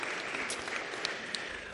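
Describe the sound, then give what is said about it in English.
Congregation applause for a bell choir at a morning worship service: a dense, steady wash of many hands clapping, with a couple of sharper claps standing out and no talk over it. “How about another round of applause for our bell choir this morning?”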